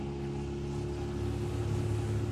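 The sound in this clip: A warmed-up boat motor idles at the start of a family fishing trip, giving a steady, throbbing drone with a strong low harmonic hum that holds at an even, fairly loud level with no voices.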